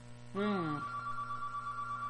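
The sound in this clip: A telephone rings with an incoming call during a call-in program. A steady ringing tone runs through the whole clip, with a short, louder tonal burst near the start.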